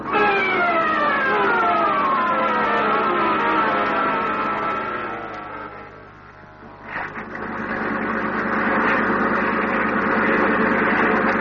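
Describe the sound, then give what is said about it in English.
A Coast Guard boat siren wails loudly, its tones sliding downward, then dips briefly before settling into a steadier wail over the droning rumble of a boat motor. “Did you hear anything just then? No, you can't hear anything over this motor. Well, I can. It's a Coast Guard.”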